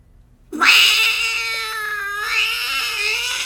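A cat lets out one long, loud yowling meow that starts abruptly after a brief silence and holds a steady, strained tone for about three seconds before easing slightly.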